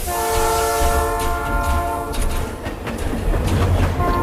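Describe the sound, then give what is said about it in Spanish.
A train pulling out of a station sounds a loud, sustained horn for about two seconds, then the horn gives way to rumbling and the clickety-clack of rolling wagons. “Uy, de nuevo el Chano se escapa en el primer tren que sale de la estación en dirección desconocida.”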